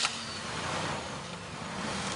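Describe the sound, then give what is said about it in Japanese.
A car engine runs at a steady idle, a low, even hum that stays fairly quiet and unchanging throughout, with no other clear sounds. “私は無言でエンジンをかけ直す”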